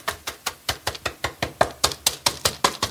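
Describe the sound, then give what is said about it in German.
Buttery biscuit crumbs are pressed firmly into a cheesecake tin, giving many quick, soft, evenly spaced thuds in a steady tamping rhythm, with no voices. “Ich gebe jetzt so ein bisschen Brösel rein, dann kannst du die total festdrücken.”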